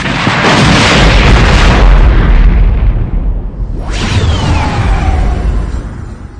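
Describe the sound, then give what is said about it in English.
A gutted gunship explodes in a science-fiction space battle: a very loud, roaring blast that fades slightly, then a second swelling burst with whooshing, descending whistle-like tones trailing off at the end. “on the screen before them, the gutted gunship suddenly exploded”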